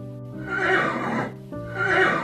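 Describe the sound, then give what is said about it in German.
A horse whinnies twice, each neigh loud and quavering with strong harmonics. “Du steigst ab und streichelst dein Pferd zum Dank am Hals.”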